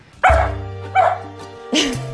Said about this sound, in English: So that's my dog, Coco.